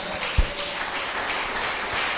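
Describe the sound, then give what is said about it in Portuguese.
A church audience applauds during a sermon on prayer, a steady, even wash of many hands clapping, with a single low thump early on. “Pode aplaudir o Senhor.”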